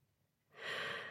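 A woman taking one deep breath: a soft, airy inhale that swells in after a moment of near silence and holds steady to the end, faint and alone.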